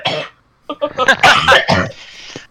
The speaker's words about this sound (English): I just want a picture that's followed by that, like you took the wrong breath or something, just started hacking.